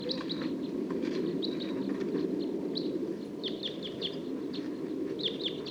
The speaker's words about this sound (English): Song of one of the wild birds. And the flock's taking off.